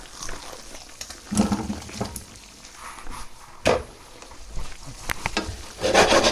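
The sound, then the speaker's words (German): Brussels sprouts are tipped into a hot pan and stirred, giving a steady frying sizzle broken by a few louder scraping, clattering bursts as the sprouts are pushed around. “Man kann also jetzt die ganzen, den Rosenkohl da reintun.”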